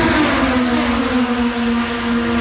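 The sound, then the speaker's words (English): Race cars at an Indy race in Markham make a loud, continuous engine roar with a steady tone that holds nearly level throughout, and no one talks. “Well, the race cars are off in Markham.”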